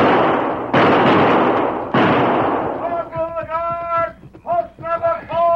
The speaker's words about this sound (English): Bring that fellow down. I'll fire over his head.